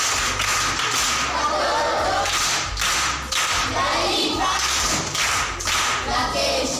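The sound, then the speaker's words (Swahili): Clapping rings out as applause for an auntie, crisp claps and dull thuds falling in a loose, roughly regular rhythm over a constant bright hiss. “Makofi kwa shangazi.”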